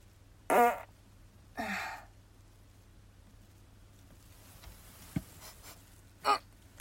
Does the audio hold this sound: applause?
no

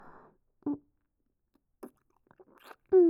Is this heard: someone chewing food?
yes

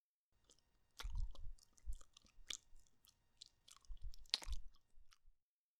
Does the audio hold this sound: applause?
no

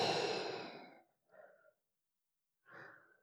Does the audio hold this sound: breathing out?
yes

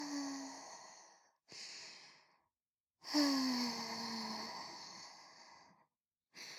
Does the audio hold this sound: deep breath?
yes

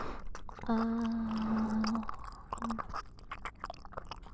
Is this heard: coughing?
no

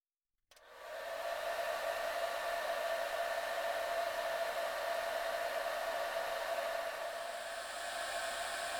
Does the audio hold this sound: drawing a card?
no

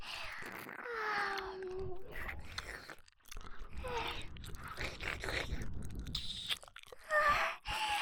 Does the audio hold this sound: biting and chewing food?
yes

